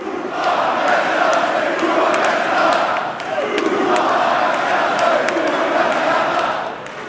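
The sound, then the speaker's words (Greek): A large crowd cheers and chants in football-terrace style for a footballer reciting a poem on stage. The roar stays loud and sustained, dips briefly near the middle, then swells again. “στη σκηνή εμφανίζεται ένας ποδοσφαιριστής αποφασισμένος να απαγγείλει ένα ποίημα και το κοινό τον αποθεώνει με όρους ποδοσφαιρικούς”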